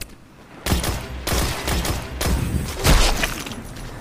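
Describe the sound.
Rapid gunfire in a Destiny 2 Crucible match, a first-person shooter game: after a short quiet start, dense overlapping bursts of shots and impacts crackle loudly and almost continuously, with a few sharper heavy blasts standing out.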